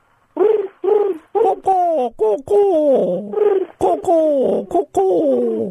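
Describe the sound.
A human voice imitates a pigeon cooing, producing a quick series of many throaty, warbling coos, most sliding downward in pitch, loud and close with short pauses between them.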